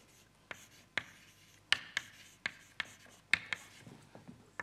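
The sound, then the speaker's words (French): Writing an equation on a board during a lecture: many short, irregular strokes and taps, faint and scratchy, with no voices. “J'écris Edward Sanderson”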